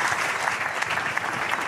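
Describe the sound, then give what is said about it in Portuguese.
A church audience applauds a pastor and a sister: brisk, dense clapping continues at a steady, fairly loud level, with no voices above it. “um aplauso também para o pastor João e para a irmã Isabel.”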